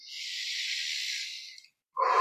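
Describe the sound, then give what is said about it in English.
A deep breath taken during a guided tapping exercise: one long, airy, steady breath lasting over a second and a half, fading out, then a brief silence before another breathy sound begins. “Nice big deep breath.”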